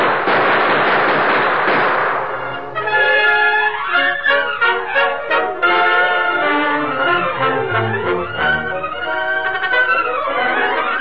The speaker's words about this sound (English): Use your gun, Toto. We'll pay back some of that lead with interest.